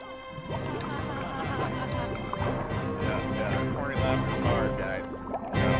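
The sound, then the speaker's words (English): Liquid sludge gurgles and drips as it fills a cave, a continuous wet churning that runs beneath people talking throughout. “With nowhere for the water to go, the cave slowly began to fill with the liquid sludge.”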